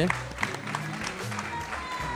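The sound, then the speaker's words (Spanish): Audience applause, a steady patter of clapping with people talking loudly over it, moderately loud from start to finish. “Un aplauso para Juan Sechi también”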